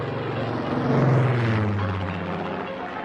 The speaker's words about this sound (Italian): Gridò il comandante facendo alzare l'aereo sempre di più.